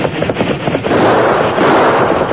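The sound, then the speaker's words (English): Gunshots fired at a galloping rider beside railway tracks: a loud, dense volley of rapid overlapping reports that blur into a continuous crackling roar without clear gaps. “The Lone Ranger ignored the shots they fired in his direction”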